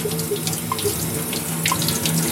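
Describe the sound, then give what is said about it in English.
Tap water runs in a steady, unbroken rush, washing developer off a photographic plate; the flow stays fairly loud and even throughout, with no talking. “now I'm washing it off. So we're now washing the developer off, which is stopping it”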